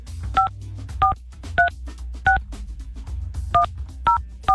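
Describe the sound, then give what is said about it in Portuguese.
Touch-tone keypad beeps as a telephone dials a toll-free number, seven short dual-pitched tones in two uneven groups with a brief pause between, heard over a low steady hum. “Deixa eu ligar. Não é possível. Vou ligar no 0800.”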